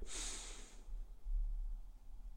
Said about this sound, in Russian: положи руку на грудь, сделай вдох через нос в живот.